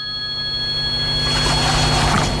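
A telephone rings with steady, high-pitched tones that give way to a burst of rustling noise.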